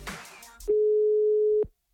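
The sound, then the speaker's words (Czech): A telephone line tone sounds after a number is dialed: one steady, even mid-pitched tone holds for about a second and then cuts off, following brief talk at the start. “Tak vyzkoušíme si, jaký to doopravdy je tím, že vytočíme její telefonní číslo.”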